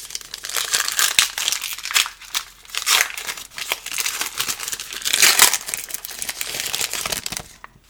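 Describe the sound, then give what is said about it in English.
Panini USA Baseball Stars and Stripes wax packs being torn open, the crinkle and rip of the wrappers coming in many uneven bursts, loud and close, with no talking. “Let's just open a couple of these packs here. There are 10 cards per box. Let's open 2 of them.”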